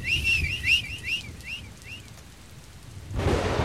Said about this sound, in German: Aus Fernen hallt der Wächter schriller Pfiff.